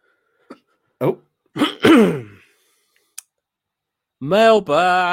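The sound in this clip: A few short, rough throat-clearing bursts from a man warming up his voice, then a brief click and a longer voiced sound near the end.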